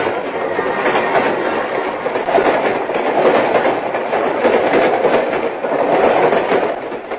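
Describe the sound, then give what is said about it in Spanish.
Steady rumbling roar of a train running on rails, heard from on board a train to Mexico City. The rolling noise with a light, continuous clatter holds evenly throughout, with no voices. “Vaya, me tranquilizo porque ya estoy a bordo del tren de México.”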